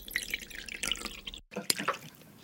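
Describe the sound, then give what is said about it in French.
Hot broth pours from a small Chinese cast-iron teapot in a quiet, brief trickle with light splashes, broken by a short pause midway before the flow resumes. “Mais là alors, vous allez verser donc, il est où ce bouillon? Le bouillon est juste là. Ah, donc un bouillon. Ah oui, carrément, dans une petite théière en fonte chinoise.”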